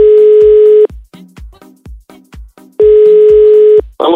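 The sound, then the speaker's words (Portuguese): Telephone dial tone on an outgoing surprise call: a steady, loud hum sounds alone, breaks into a rapid run of short blips, then returns as a second steady tone before a brief noisy burst. “agora uma ligação surpresa de um contato que entrou lá pro direct da Lígia”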